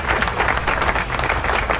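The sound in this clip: A brief burst of crowd applause, many hands clapping in a dense, even patter that stays steady for under two seconds.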